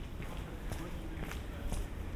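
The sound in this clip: Footsteps walk along a street in Sweden, with soles crunching on stones. A few steady, evenly spaced steps sound over constant background noise.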